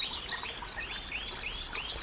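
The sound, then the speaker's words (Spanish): Birds sing outdoors among trees: many high chirps and trilling calls overlap continuously over a soft, steady background hiss. “cada vez escuchas más el sonido del viento, el canto de las aves y el susurro de las ramas de todos los árboles a tu alrededor.”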